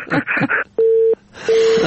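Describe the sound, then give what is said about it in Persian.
Telephone busy tone after a caller's line drops, giving two short, steady beeps. A voice talks just before the first beep and again over the second. “متاسفانه تماسشان قطع شد. والا فضلالله جان خنده گرفت، حتما دستش در تلفن خورد.”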